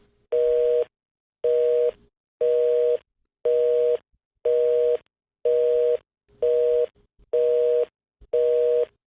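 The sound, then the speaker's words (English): Telephone busy signal: nine evenly spaced bursts of a steady two-tone beep, each about half a second long and separated by short silences, clear and alone. “Oh, it's busy. That means I should call back.”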